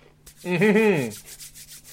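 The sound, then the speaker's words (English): Hands rubbing together briskly produce a brief, squeaky friction sound lasting about half a second, rising and falling slightly in pitch against a low steady hum, with no voices. “As I rub my hands together”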